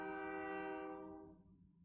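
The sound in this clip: A train horn gives one sustained, harmonic-rich blast, faint overall, holding steady before gradually fading away over about two seconds.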